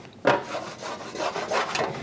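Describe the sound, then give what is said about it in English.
A wooden spatula scrapes browned bits from a roasting pan set over a burner and deglazed with sherry vinegar. A series of dry, rasping strokes repeats in an uneven rhythm, with no voices. “The acid and the heat are helping me scrape these brown bits right up from the pan.”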